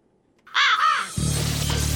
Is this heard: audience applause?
no